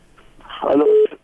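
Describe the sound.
Telephone tones as a call connects: a short burst of mixed tones settles into one loud, steady mid-pitched tone lasting about a quarter second before it cuts off.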